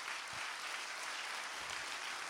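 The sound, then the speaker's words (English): Congregation applause during a church service: a faint, even wash of many hands clapping that stays steady without breaks or voices. “would you give him a 30-second thunderous round of applause?”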